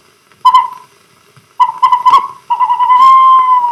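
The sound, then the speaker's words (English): Snowy owl calls: three clear, whistle-like tonal cries. The first two are short and the third is long and drawn out, each rising sharply from silence with no other sounds. “Here's the call of the snowy owl.”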